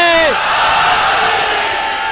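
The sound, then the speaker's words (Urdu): A crowd at a religious gathering roars in response to the Nara-e-Haidari slogan honouring Ali. A single voice's falling cry opens a loud, sustained massed shout that holds at a steady level. “میں نعرہ حیدری لگاؤں گا، جہاں کہیں جو کوئی بھی علی کا چاہنے والا موجود ہے اپنی دل کی گہرائیوں سے امیر المومنین کا نام بلند کر دے، نعرہ حیدری۔”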